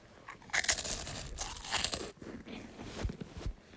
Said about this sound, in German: Ich bin am Essen.